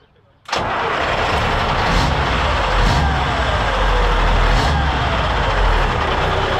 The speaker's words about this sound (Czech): Zkusíme teď nastartovat, snad se nám to povede.